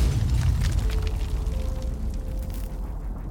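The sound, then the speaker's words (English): A bomb explosion strikes a building during a safe heist: a heavy, continuous low rumble fills the whole clip and eases slightly toward the end. “They're almost out of the building when the bomb strikes.”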